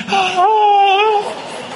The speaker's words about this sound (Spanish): llanto con gritos como ese que acaba de sonar